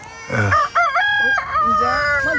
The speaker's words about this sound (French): Fais taire ce coq.